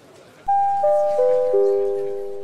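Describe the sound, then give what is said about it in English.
A theatre bell signalling the end of intermission: four bright chime tones struck one after another, stepping down in pitch, each ringing on and overlapping the next. “There's the bell, and lights are flashing in our virtual lobby, so let's double-check our Facebook post to make sure we're not obnoxious, wave goodbye to Nate and Cam, and head back into the house for Act Two.”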